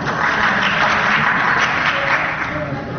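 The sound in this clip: Applause fills a parliament chamber after a member's speech, with both majority and opposition benches clapping. The clapping is dense and continuous and fades slightly at the end.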